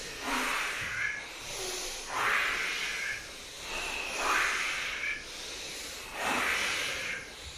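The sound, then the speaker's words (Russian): Deep breathing during a kriya meditation: four slow, hissing, airy breaths at steady intervals, each swelling and fading, with no talk. “Дышим, дышим, дышим.”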